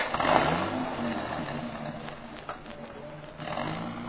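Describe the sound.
A car engine runs as the car drives off, a steady, rough, rumbling drone that swells a little at the start and again near the end.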